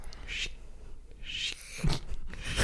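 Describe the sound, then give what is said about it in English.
Hair being cut at a barber's, heard as a few short bursts of crisp, hissy snipping and rustling over a low, steady background noise. “Okay, I'm going to cut your hair now.”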